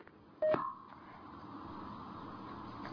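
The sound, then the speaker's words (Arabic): A short burst of electronic telephone tones as a call disconnects, then a steady, faint tonal hum that runs on to the end. “طيب انقطع اتصال.”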